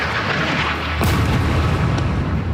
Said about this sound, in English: Israeli airstrikes like this one on a mosque and refugee camp this week have continued regularly